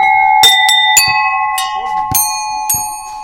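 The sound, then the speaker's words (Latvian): Folk bells of various kinds, the type favoured by folklore ensembles, are rung at a rural crafts house. About six bright strikes are heard, each leaving a clear metallic ring that overlaps the next. “Te dažādi zvani.”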